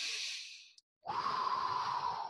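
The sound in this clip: A deep breath out during a guided breathing exercise: a soft, airy hiss of exhaled air, followed after a short pause by a longer, steadier breathy stretch, with no talk.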